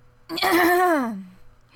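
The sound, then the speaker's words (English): A long, deep breath let out after reading aloud at length, heard as a single voiced sigh that slides downward in pitch and fades away. “Jesus, forgot to take a breath.”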